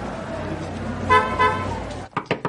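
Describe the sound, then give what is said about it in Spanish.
A car driving down a street during a town festival, with a steady low engine rumble and two short horn toots, followed by a few brief voice-like bursts. “Bajan con el coche por la calle.”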